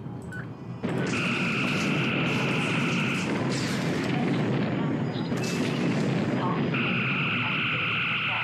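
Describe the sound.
Torpedo and phaser fire explode in a starship bridge combat video game. After a short quieter opening comes a loud, continuous blasting roar, with steady high beam-like tones running over it for long stretches.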